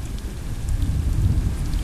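Steady rain falls without a break, a dense, even hiss with a heavy low rumble. It holds at the same level throughout, with no voices.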